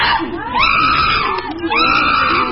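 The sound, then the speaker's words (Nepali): Excited, high-pitched shrieking from two animals in their enclosure as they eat fruit and vegetables from a basket a keeper brought in. Loud, drawn-out harmonic cries come in a few overlapping bursts, with a short dip in the middle. “केही बेरमै उनीहरू उत्साहित हुँदै कराउन थाले।”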